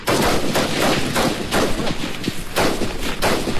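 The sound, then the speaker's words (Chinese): Gunfire during a special forces combat exercise in hot, humid subtropical terrain: loud, dense bursts of shots run through the whole clip with hardly a pause. “特战队员交替掩护，先敌开火，这是一场意志和战术的较量。”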